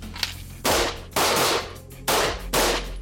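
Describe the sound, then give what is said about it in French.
Service pistols fired at a shooting range during an officers' firing exercise, four sharp, loud cracks falling in two close pairs, each followed by a short ringing decay. “Allez, si vous êtes prêts, vous sortez votre arme et vous tirez 2 cartouches.”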